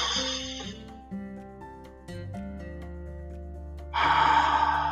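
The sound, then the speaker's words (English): Guided breathing exercise: an audible breathy inhale at the start, a quiet hold over soft sustained musical tones, then a stronger airy exhale near the end. “So inhale, hold it for the count of four, and exhale at the count of two.”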